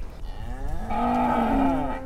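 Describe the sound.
A dairy cow that calved this morning moos in a barn: one long, loud, low moo that swells and holds steady, slightly higher toward the end, with no other sound around it.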